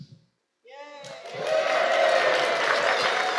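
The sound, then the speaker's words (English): Crowd of fans at the Super Bowl cheering and applauding. The sound swells from quiet into a loud, sustained roar of clapping and shouting that holds to the end. “Peter, Joanna, and John, realizing now that they could make a difference, dropped their soda money in Supercan's pot, and all the fans at the Super Bowl cheered.”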